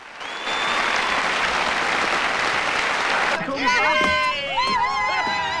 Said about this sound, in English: Gradually, more and more people stand and clap.